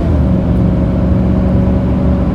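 A car engine and road noise as the car accelerates on the road to turn off ahead of a truck and trailer. A steady, loud low drone holds evenly throughout, with no clear change in pitch.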